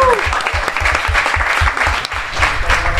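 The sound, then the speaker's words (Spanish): Audience applause for a man called up from the crowd, loud sustained clapping that fills the whole stretch, with regular low thumps pulsing steadily underneath. “¡Venga usted, caballero! ¡Bravo! ¡Un aplauso!”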